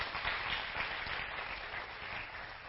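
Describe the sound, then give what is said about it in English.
Applause from a church audience welcoming two people to the front: dense, steady clapping that holds at an even, moderately faint level for the whole stretch, with no voices. “Give them a hand.”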